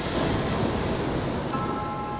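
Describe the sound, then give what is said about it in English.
Waves crash against steep cliffs in a dense, continuous roar of surf, loud throughout with no distinct breaks and no voices. “As the water crashed against the steep cliffs, I found a small perch for myself and waited.”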